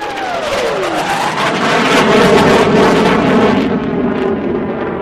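An airplane's engines roar as it struggles to take off: a loud, dense, steady drone with a tone sliding downward during the first second.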